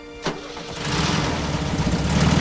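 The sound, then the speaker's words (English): A truck engine starts with a short crank, then catches and settles into a loud, steady rumble that grows slightly louder toward the end. “sitting in his truck outside David's real house. He smiles to himself and drives away.”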